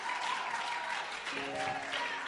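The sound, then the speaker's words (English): A church audience breaks into brief applause, a soft, dense wash of clapping with some crowd noise mixed in, lasting only a couple of seconds. “Now go ahead and put your hands together and make some noise.”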